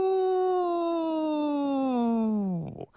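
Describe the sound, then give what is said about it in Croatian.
A voice imitates a wolf howling in a children's story: one long, drawn-out wail that slides slowly downward in pitch, then breaks into a short, rough drop at the end. “Dok juri tako uz grobni muk, pred njom na stazi stvori se vuk.”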